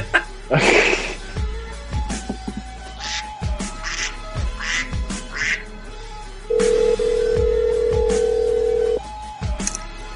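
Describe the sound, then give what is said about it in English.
A duck-quack text message ringtone on a phone: a string of nasal, buzzy quacks repeats at uneven intervals, and a steady electronic tone later holds for a couple of seconds. “What's that duck sound? My text ringtone.”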